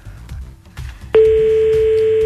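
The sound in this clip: An unanswered telephone call: low background noise at first, then a single loud, steady line tone sets in abruptly and holds unbroken to the end.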